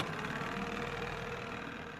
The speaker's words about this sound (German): Ingenieur Storch springt daher wieder ins Boot und fährt los.